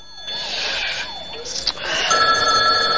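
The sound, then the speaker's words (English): A telephone rings, rousing a woman asleep on a sofa: a bright electronic trilling ring that carries on steadily and grows louder toward the end. “The phone rouses Joan on the sofa.”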